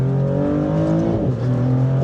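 A Maserati V6 engine revving on a circuit with its exhaust opened up. The drone is loud and steady, dips briefly about midway, then climbs and holds again.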